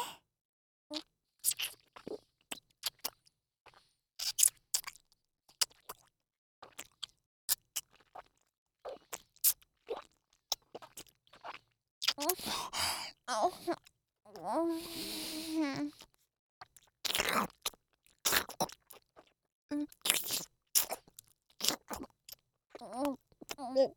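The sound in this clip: Crunchy chewing and biting of food: many sharp, irregular crunches in quick bursts. A voice is briefly heard among them.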